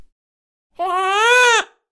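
A single infant cry, clear and tonal with strong harmonics, starting after silence and holding a fairly level pitch for under a second before dropping sharply at the end.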